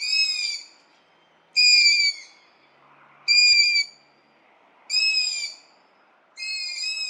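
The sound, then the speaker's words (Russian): Long-eared owl chicks squeaking, heard from a window in the evening: five high, thin, whistly begging squeaks, each under a second long, repeated at a steady pace with quiet gaps between. “из окна мы слышим писки птенцов ушастой совы. Они очень характерные, можно послушать.”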